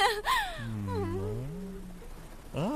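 A baby whimpers and cries in a drawn-out, wavering wail that sinks to a low, moaning tone, then ends with a short rising cry, fairly faint throughout.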